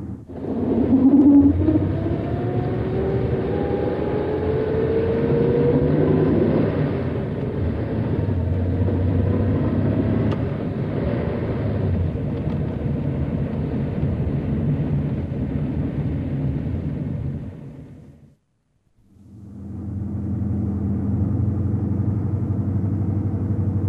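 A truck engine pulls away and accelerates, a heavy low rumble that continues for a long stretch with a rising whine early on, broken by a brief silence near the end before the rumble resumes.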